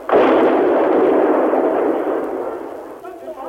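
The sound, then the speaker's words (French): An explosion of shelling during the fall of Phnom Penh in April 1975, strong enough to shake walls, hits as one loud blast and then rolls on as a heavy rumble that slowly fades over about three seconds. “Elles ont raison, de nouvelles explosions font trembler les murs.”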